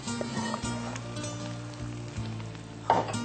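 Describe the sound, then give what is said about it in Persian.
Hot oil, used to fry carrot strips and raisins, poured over cooked rice sizzles steadily. A brief louder clatter comes near the end. “روغنی که داخل خلال زردک و کشمش ریخته بودیم بالای برنج میریزیم”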